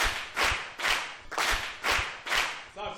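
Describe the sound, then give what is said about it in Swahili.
Schoolchildren in a classroom clap for a classmate who answered correctly, sharp hand-clap bursts coming in a quick, regular rhythm, each burst loud and separated by brief gaps. “Mpe makofi.”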